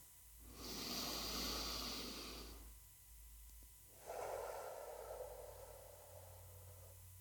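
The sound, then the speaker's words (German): Deep, deliberate human breathing: two long, soft breaths, each drawn slowly with a gentle airy hiss, separated by a brief quiet pause. “Ich atme nochmal ganz bewusst.”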